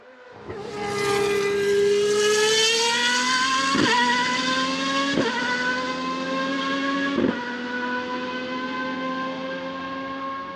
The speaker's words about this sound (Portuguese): Nasce então a Ferrari 641.